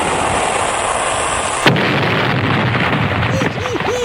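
A cannon fires a single shot as a sound effect, a sharp blast cutting through a loud, steady rumbling noise that continues afterward.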